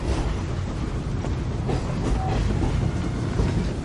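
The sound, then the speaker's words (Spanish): A passenger train carriage rolls along the rails with a continuous rumbling roar and a faint clickety-clack of the wheels, steady throughout, with no voices. “Arthur despierta sobresaltado en el vagón.”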